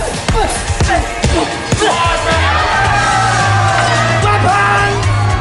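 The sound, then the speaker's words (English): A crowd cheers wildly at a pit fight, with loud yells, whoops and bellowing shouts in a dense, continuous roar. Several sharp bursts of shouting stand out early on. “The crowd cheer wildly.”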